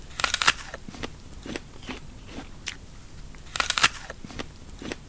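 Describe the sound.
Crisp bite into a Gala apple followed by many crunchy chewing crackles, irregular sharp bursts with a dense cluster near the start and another later, with no talking.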